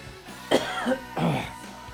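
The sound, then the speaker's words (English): A person coughs a few times, rough, throaty bursts that are fairly soft and heard on their own. “Someday this cough is going to go away.”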